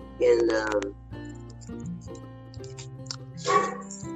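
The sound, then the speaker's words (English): A pet dog whines and yips in two short, high bursts, one near the start and one near the end, over a faint steady background. “Sorry, that's my dog.”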